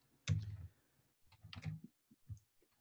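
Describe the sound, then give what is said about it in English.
A computer mouse gives a few quiet, sharp clicks during a right-click, heard alone with short pauses between them. “If I right click on this, I can copy the Python command and I can paste the Python command.”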